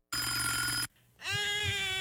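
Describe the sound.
A telephone rings in two bright, harmonic bursts separated by a short gap. The ring is loud and clear, with no voices.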